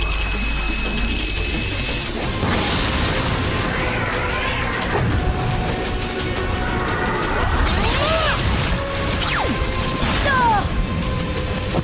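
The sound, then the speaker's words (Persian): Metallo switching on as its kryptonite energy cores activate: dense mechanical whirring and clanking with crash-like hits, plus a few sweeping electronic tones that bend up and down, all loud and continuous. “الان متالا رو روشن میکنم و هسته های انرژی کریپتونایتی جدیدشون رو فعال میکنم.”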